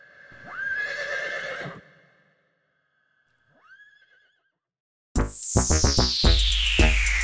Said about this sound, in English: It is a unicorn sound effect.